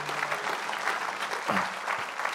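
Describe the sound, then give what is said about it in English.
Congregation applauding the church band: dense, steady clapping that fills the whole clip at an even, fairly loud level, with no clear break. “Thank you, team. Thanks so much, guys. We can clap the band.”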